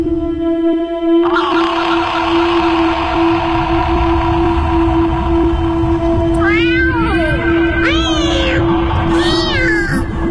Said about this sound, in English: Thrice the brinded cat hath mewed, thrice and once the hedge pig whined.